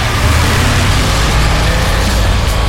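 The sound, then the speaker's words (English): A drag racing car engine roars loudly and continuously, a dense, steady rumble with no pauses or clear revving peaks. “Ready to hit the gas on your summer?”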